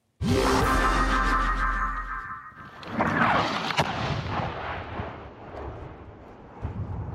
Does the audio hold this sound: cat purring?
no